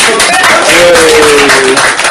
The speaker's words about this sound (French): Applaudissez pour lui.